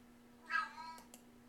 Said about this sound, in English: Excuse my cat. He likes to chime in on the podcast.